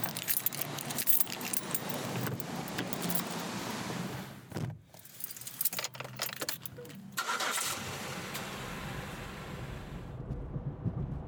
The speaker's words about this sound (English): We have seamlessly transitioned into a moving vehicle.